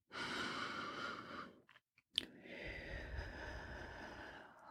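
Breathing in and out during a guided relaxation exercise: two soft, breathy airflow sounds separated by a short pause, faint and alone.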